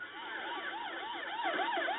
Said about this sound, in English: Ambulances screamed throughout Beirut, carrying dead and wounded to nearby hospitals.